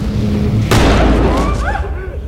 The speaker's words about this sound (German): Zwei feuert mit seiner Schrotflinte den Warnschuss ab